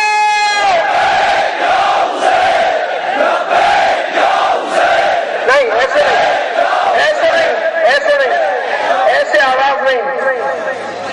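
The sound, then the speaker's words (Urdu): A large crowd chants a religious slogan in unison at a protest sit-in. Loud, sustained massed voices rise and fall in repeated rhythmic calls for about eleven seconds. “پوری طاقت کے ساتھ آخری تک دونوں ہاتھوں بلند کر کر پوری قوت کے ساتھ لبیک یا حسین کہیں گے. اس کے بعد ہمارے برادر آپ کے سامنے نعرہ پڑھیں گے, لبیک یا حسین.”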